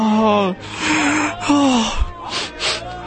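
A man crying aloud, with a few drawn-out, moaning wails broken by gasping, sobbing breaths, loud and alone with no other voices.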